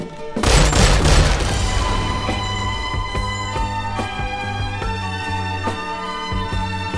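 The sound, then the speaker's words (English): A gunshot in a film scene hits with one loud, sharp boom, followed by sustained ringing tones and a steady low drone that continue to the end. “there's that gun and he shoots her”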